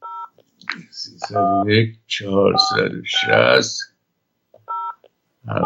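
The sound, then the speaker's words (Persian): Touch-tone beeps as a phone number is dialed: short, clean two-pitch electronic tones at the start and a few more near the end, separated by a stretch of a person speaking. “اجازه فرمایید من تلفن جناب قاسمی رو بگیرم و با هم صحبت کنیم.”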